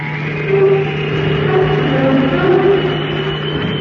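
A spacecraft's rocket motor roars as the craft lands on the moon. It is a steady, loud, low engine drone with a constant humming tone and no change in level.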